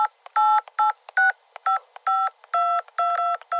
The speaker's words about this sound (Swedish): Vänta, jag ska ringa värden.